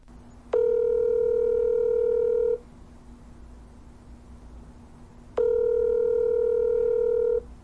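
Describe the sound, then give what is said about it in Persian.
A telephone ringback tone while a call is placed to a guest: two steady buzzing tones, each about two seconds long, separated by roughly three seconds of quiet over a faint constant hum. “بریم که باشون تماس بگیریم”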